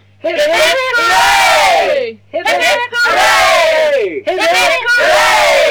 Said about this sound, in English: Ladies and gentlemen, we're here to say farewell to our friend Tim. As you know, he's leaving for America. Three cheers for Tim!